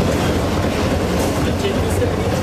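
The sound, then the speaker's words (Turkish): A metro train arrives at a station platform with a loud, steady rumbling roar and rattling that stays dense and even through the short clip. “Tam o sırada tren geliyordu.”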